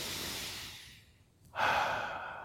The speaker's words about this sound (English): We'll take a few deep breaths.